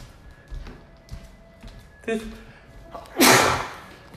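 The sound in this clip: A sneeze bursts out loudly near the end, sharp and breathy, after a few faint soft thuds and quiet sounds earlier on.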